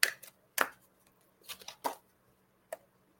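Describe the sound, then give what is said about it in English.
A card being drawn from a deck: a few soft, papery flicks and slides, faint and spaced out, with quiet gaps between them and no talking. “Let me pull one of these cards for you.”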